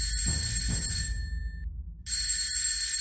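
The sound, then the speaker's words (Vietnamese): An alarm clock rings to wake someone sleeping in bed, a bright metallic bell ringing steadily, breaking off briefly partway through, then starting again at moderate volume. “tôi leo lên giường ngủ một giấc cho tới khi tiếng chuông báo thức vang lên”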